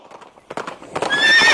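Horse hooves clip-clop in a quick run of loud beats, then a high, shrill whinny rings out at the end, all in a horse racing advertisement.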